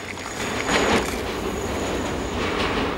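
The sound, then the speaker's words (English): A subway train passes through a disused station with a dense, steady rumble and rattle of wheels on track, and a thin, high metallic squeal runs above it. “Subway tracks are a blur as a train passes through a disused station, which is now home to hobos and rollerbladers.”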